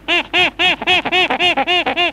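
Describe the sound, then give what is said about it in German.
A small captive monkey kept in a cage gives a rapid run of many loud, harsh, high squawking calls, each short and clipped, repeating evenly with only brief gaps between them. “Und der kleine Affe, was sagte der eben?”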